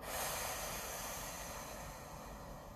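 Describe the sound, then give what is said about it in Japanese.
A long, deep breath during a voice-training breathing exercise, heard as an airy, hissing exhalation that swells early and then slowly fades, steady and unbroken throughout. “吐き切ったら吸うなるべく深く吸って吐く”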